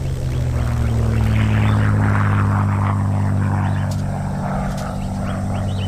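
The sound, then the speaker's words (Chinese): Low droning engine of an enemy reconnaissance aircraft flying overhead, a steady, unbroken hum with deep tonal layers that holds at an even loudness throughout, with no voices heard. “根据以往的经验，敌人的侦察机飞走之后，跟着敌人的轰炸机就来了。”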